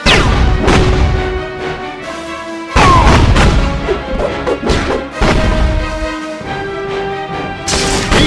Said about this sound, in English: Ah! Those flash grenades are nasty!